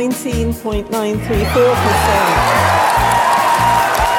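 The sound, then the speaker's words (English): Audience applause and cheering at the announcement of the Labour Party leadership result: a man speaks the figures, then loud, sustained clapping and cheers break out and continue under his voice to the end. “The reaction of the audience said it all. Even if the final number got lost in the sound of applause, Ed Miliband is the new leader of the Labour Party”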